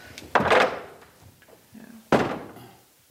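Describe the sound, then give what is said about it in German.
Window shutters being closed in a room, heard as two loud wooden thuds a little under two seconds apart, each with a short fading tail and quiet between them. “Wenn ich tatsächlich hier mal finster haben möchte, dann kann ich da diese Läden zumachen.”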